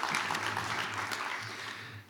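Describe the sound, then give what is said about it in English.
Audience applause for panel members at a drone-industry event: faint, steady clapping that continues through the whole clip over a low hum, then eases off at the end. “Another round of applause for our panel members, please.”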